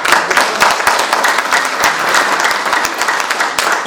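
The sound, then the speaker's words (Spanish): Audience applause at a municipal community event: dense, steady clapping from a crowd, sustained at an even level throughout. “les voy a pedir un voto de aplauso para nuestro honorable Telmo.”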